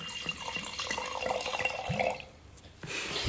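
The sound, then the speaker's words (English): A drink poured into a glass makes a soft, continuous trickle with light gurgles, quiet throughout, dipping briefly near the end before the liquid sound returns. “you need to be quiet to get the drink pour in the glass”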